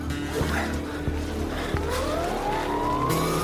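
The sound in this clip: A quad bike engine approaches, its steady droning whine rising gradually in pitch over continuous rumbling noise, with a few brief thuds early on.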